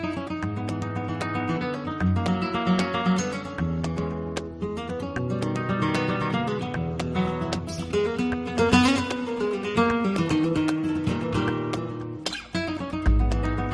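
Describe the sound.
Flamenco guitar played by a guitarist from Jerez: a fast, dense run of plucked notes and strummed chords, continuous and fairly loud, with a brief dip and a sharp struck accent near the end.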